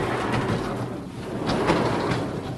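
A wooden storm shutter slides along its track into its door pocket, producing a continuous rumbling, scraping rush that holds steady for a few seconds with slight swells, with no talk.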